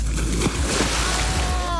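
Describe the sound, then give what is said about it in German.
Water splashing and sloshing as swimmers race over 25 metres, a dense, steady churning wash that runs throughout. “Willst du Wettschwimmen mit mir machen? Okay, 25 Meter. Auf die Plätze, fertig und los.”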